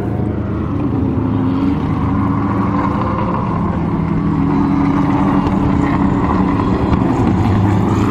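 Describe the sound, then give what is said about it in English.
Race car engines at Le Mans, an Aston Martin among them: a loud, continuous mechanical roar that holds steady and dense for the whole stretch without any break. “Aston LMP2 and Ford GT, and a Ferrari Italia then, and this is another Aston.”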